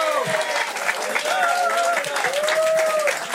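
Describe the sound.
Audience applause for a jazz band after its set: a dense, steady wash of clapping that stays loud throughout, with voices calling out over it.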